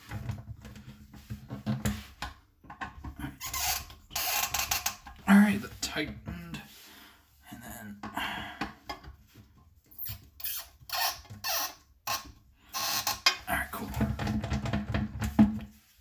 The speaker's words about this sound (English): Wiggles just a little bit. Need to tighten it down further. All right, this is tight, so that's going. Yep, same there. All right, my toilet lid's in.